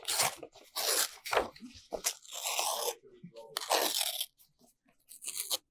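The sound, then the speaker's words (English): Paper is ripped up in several harsh, crackly tearing bursts that come in quick succession, fairly loud, with short pauses between the rips. “Where's the pen? Rip it up.”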